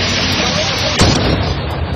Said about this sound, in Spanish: Rumanía, donde varias explosiones en una gasolinera de gas licuado han sembrado el terror a las afueras de la capital, en Bucarest.